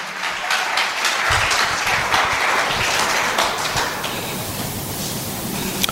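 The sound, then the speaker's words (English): An audience claps during a sermon, producing a dense, steady wash of applause that stays loud for the whole stretch. “I didn't say clap, so if you are clapping,”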